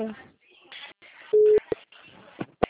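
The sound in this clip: A single short busy-tone beep follows a dropped phone call. It is a steady mid-pitched tone of under half a second that cuts in between stretches of quiet talking.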